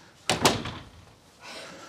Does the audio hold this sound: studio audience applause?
no